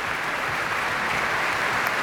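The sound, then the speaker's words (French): Concert audience applauding the Antwerp Symphony Orchestra and the prize-winning young soloists at a laureates' concert. The clapping is steady and dense, fairly soft, and runs without a break. “Ils reviennent chercher des applaudissements mérités pour ce concert de lauréat, bien sûr, mais aussi pour toute leur aventure élisabéthaine.”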